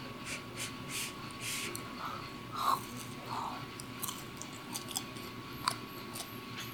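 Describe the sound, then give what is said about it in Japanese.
Soft, quiet biting and chewing of freshly grilled mochi coated in chunky red bean paste, eaten from a sweet red bean soup with gold leaf in Kyoto; a few gentle, moist bites over a faint steady hum. “たっぷり粒あんを絡ませていただきます。”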